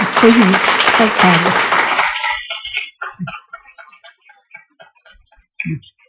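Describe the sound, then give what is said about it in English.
Applause from an audience at a devotional talk: a thick burst of clapping for about two seconds, then thinning into a few scattered, isolated claps that fade out. “It's actually when we clap, we clap to Srila Prabhupada because he had the vision.”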